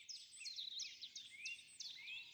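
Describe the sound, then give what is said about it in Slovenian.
Birds call and chirp at a quiet monastery in central Europe: a rapid run of high, sweeping chirps repeating over a soft, steady background, with no other sounds. “Tako kot v času naše naselitve pred skoraj 900 leti, kraj še vedno izžareva mir in spokoj, ki ga motijo le ptice.”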